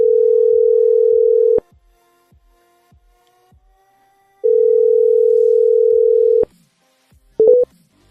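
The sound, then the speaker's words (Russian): A telephone dial tone plays while a number is dialed: a steady low tone for about a second and a half, faint ticks, a second two-second stretch of the same tone, then a few brief beeps at the end. “Сейчас я вот на этот номер наберу.”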